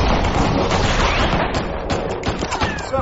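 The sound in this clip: Heavy rifle gunfire during a battle, with many overlapping shots merging into a dense, continuous crackle and rumble. It stays loud throughout, with no clear gaps between shots.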